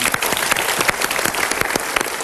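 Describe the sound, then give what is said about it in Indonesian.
Applause from a studio audience at a motivational talk show. The clapping is dense and steady and lasts the whole time at an even level, with no voices standing out. “Kita berikan tepuk tangan dulu.”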